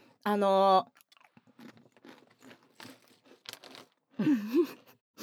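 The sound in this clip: Potato chips being eaten: irregular crisp crunches and crackles from chewing, with a voice heard briefly at the start and again near the end.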